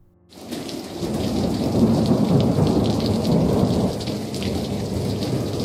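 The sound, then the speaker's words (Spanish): Heavy rain pours steadily during a very strong, cold thunderstorm at 1 a.m. A dense, loud roar of rainfall mixes with low rumbling thunder throughout, starting after a brief near-silent moment. “Hoy, 17 de mayo, 1:00 a.m, una tormenta muy fuerte y fría.”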